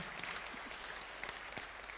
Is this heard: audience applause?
yes